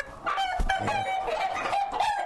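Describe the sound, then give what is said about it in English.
Chickens in a yard, birds that are penned once they start fighting among themselves: loud, continuous clucking and squawking with drawn-out crowing calls layered over it, with no voices. “Some of them will hit at a person, but generally they only fight other chickens.”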